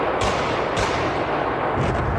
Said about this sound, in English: Gunmen had stormed the venue near Moscow, the Crocus City Hall. They went on the rampage, shooting their way through the building and into the auditorium.